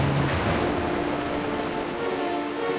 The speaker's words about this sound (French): Les vagues roulent contre les immenses falaises. Le sable est blanc et l'eau turquoise.